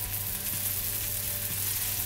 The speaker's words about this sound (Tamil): நல்லா ரோஸ்ட் ஆகட்டும். அப்புறமா மற்ற தோசை மாதிரி இது வந்து சீக்கிரமாக ரெடி ஆகாது, நல்லா மொறுமொறுன்னு ஆகிறதுக்கு கொஞ்சம் நேரம் ஆகும்